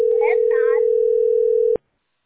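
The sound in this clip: Telephone dial tone: one steady, low continuous tone that holds for under two seconds and then cuts off abruptly, with brief speech over its start.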